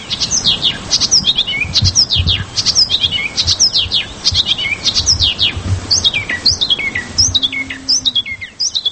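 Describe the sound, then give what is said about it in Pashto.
A small greenish bird sings in the Wakhan valley, a fast, continuous stream of high, thin, sharply falling chirps repeated many times, loud and alone without voices. “دا هم د واخان پښنا او ښکلی دره کې د موندل سوی کوچنی مرغه سندره چې څېړونکي تیمنز ثبت کړی ده”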